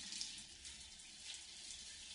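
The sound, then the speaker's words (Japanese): Hot water runs steadily while rinsing foam from hair, a faint, even hiss of flowing water with no voices over it. “お湯が流れる。左側の髪から泡が流れて消えていく。”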